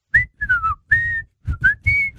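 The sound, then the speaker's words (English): A person whistles a tune alone: a bright, clear melody of several short notes and held tones in quick succession, some gliding slightly in pitch, separated by brief gaps, fairly loud with no talking. “I consider myself a good whistler.”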